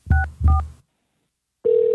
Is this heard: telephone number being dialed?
yes